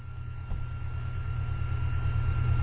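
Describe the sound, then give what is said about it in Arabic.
Steady droning roar of an airplane passing overhead during a lesson: a continuous low rumble with a faint, even hum above it, holding at a constant level with no voices. “فتعرف صوت الطائرة مشوش، فسكت حتى يذهب صوتها”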